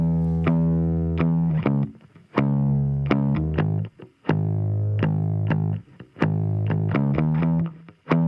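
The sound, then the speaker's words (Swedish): Dry electric bass loop with no effects, a low plucked riff of short and sustained notes in a steady rhythm. The phrase repeats about four times, each separated by a brief gap, and plays alone. “det är en liten elbasslinga som vi kan lyssna på. Ja. Som låter så här.”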